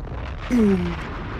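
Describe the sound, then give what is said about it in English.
A bomb-drop sound effect plays as a short, loud burst with a falling whistle-like tone that lasts about half a second, over a steady background. “Hit him with the bomb. Hit him with the bomb.”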